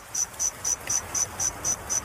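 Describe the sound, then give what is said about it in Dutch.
Reconstructed song of an extinct Jurassic insect, cricket-like: eight evenly spaced high chirps in a steady rhythm, clear and alone over a faint hiss. “Want die uitgestorven insecten die leefden 165 miljoen jaar geleden. Maar dan moet het een beetje zo hebben geklonken.”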